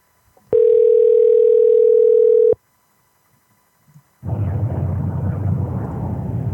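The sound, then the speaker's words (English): A telephone call going to voicemail: one steady, loud tone of about two seconds, a short silence, then a loud rough burst of noise that continues to the end. “That was the voicemail.”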